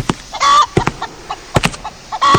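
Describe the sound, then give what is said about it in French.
Chickens clucking in a poultry breeder's barn: a busy run of sharp, choppy clucks, broken by a few louder, drawn-out squawks. “Il y a un tel raffut ici. Je me demande bien ce que manigance cet éleveur avec ses poules.”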